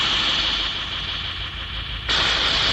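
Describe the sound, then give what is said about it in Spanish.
A sci-fi laser cannon fires from a miniature ship travelling through the bloodstream, heard as a sustained hissing, roaring rush of noise that holds steady, then jumps abruptly louder and brighter near the end. “el hematólogo disparó el cañón láser.”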